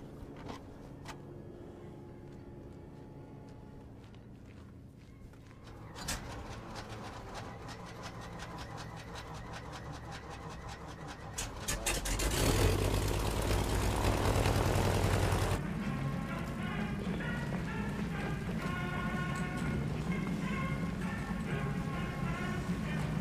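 A propeller aircraft engine is started after pre-flight checks of flaps and controls. A faint whirring begins partway in, swells into a loud roar, then settles into a steady, droning idle.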